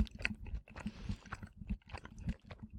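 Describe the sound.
Chewing and crunching of food as someone finishes a meal: a quick, irregular run of moist bites and crisp crunches at moderate loudness, with no talking.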